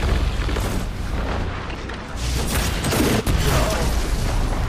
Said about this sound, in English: Oh, I grenaded him!